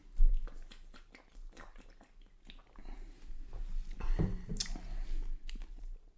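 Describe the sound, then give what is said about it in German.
Beer being drunk: wet gulping and swallowing with lip-smacking sounds in an irregular run, moderately loud with no talk. “So, jetzt trinken wir”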